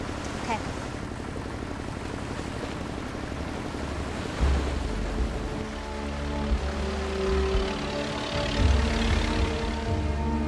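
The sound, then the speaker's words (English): Steady, low droning of a boat motor travelling on a river at dusk, a constant hum with slight swells in loudness throughout. “Dusk. The boat motors around a headland.”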